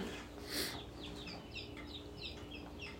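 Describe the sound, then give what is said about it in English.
Chickens, including newly hatched chicks in incubators in the room, give many high, short peeping chirps in a quick, irregular stream, with a low steady hum underneath and a brief louder burst near the start. “They're chickens in the background. Some of them are newly hatched out in the incubators here in the room.”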